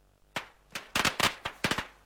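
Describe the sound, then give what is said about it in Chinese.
Firecrackers and skyrocket crackers go off at a roadside, giving many sharp, loud pops and bursts in an irregular crackling run, some in quick pairs, with no talk. “马路边忽然围了一群人，鞭炮声噼啪响起，见货还有几只高升窜到半空炸开，震耳欲聋。”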